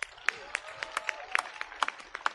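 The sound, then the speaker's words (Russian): Scattered applause as people sit down at a church prayer gathering, with sparse, irregular claps of moderate loudness rather than a full ovation. “Присаживайтесь под аплодисменты.”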